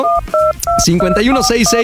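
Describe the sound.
Telephone keypad dialing tones: three loud, steady two-note beeps in quick succession, followed by a voice speaking over shorter tonal sounds.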